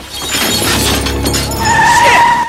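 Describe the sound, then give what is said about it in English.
Glass shatters as a car smashes through a glass bus shelter: a loud, dense crash and crunch sustained throughout, with a steady high squealing tone joining in the second half. “A motorist swerves to avoid hitting the skateboarder and smashes into Syl, knocking her through a bus shelter.”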